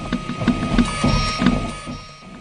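A 3D printer prints a dinosaur skeleton model with a rhythmic mechanical whir. Steady motor hum and regular stepping pulses repeat several times a second, then ease off slightly toward the end.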